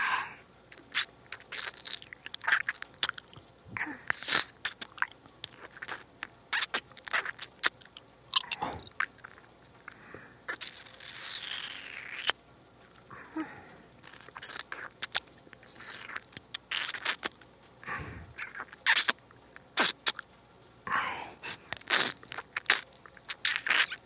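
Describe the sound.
Close biting and chewing of food while tasting, with many irregular crunches, crisp bites and wet squishy chews, quiet and without talk.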